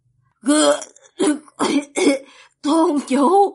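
Violent coughing: a rough run of several harsh, voiced bursts, the last one longer and drawn out, with brief gaps between them.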